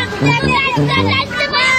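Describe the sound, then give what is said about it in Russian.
Children play in an attic, their high-pitched voices chattering and overlapping in a continuous lively babble. “Где-то на чердаке играют дети.”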